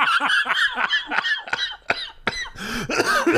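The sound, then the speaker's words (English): Repeated harsh coughing from one person, a rapid run of loud, rasping bursts with throaty, voiced tones between them, continuing for a few seconds. “That gave me the coughs.”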